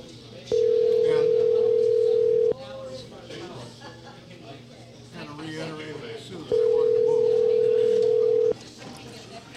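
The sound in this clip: Steady telephone tones as a call is placed: two long, even buzzing tones, each about two seconds at one low-mid pitch, separated by a pause in which voices talk.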